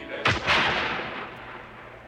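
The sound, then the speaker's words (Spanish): A shotgun is fired into the darkness by a farmer who thought a fox was prowling near the pens, one sharp booming blast with a second burst right after, then a long, slowly fading rumble. “Tomó la escopeta que estaba permanentemente en un rincón del dormitorio y disparó un tiro en la”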